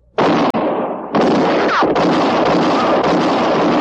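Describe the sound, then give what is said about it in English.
Gunshots in a 1958 Western radio drama: loud, heavy blasts with a roaring rumble, one near the start and another a second later, the noise sustained to the end. “It was Katie Fulton's shot that missed Mattie Silks and hit Court Thompson.”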